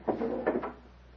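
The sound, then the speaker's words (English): A door to a private chamber is opened off a small anteroom: a brief woody clunk and rattle in two or three quick bursts, then fades to quiet. “He enters and quickly crosses the little anteroom to open the door to his private chamber.”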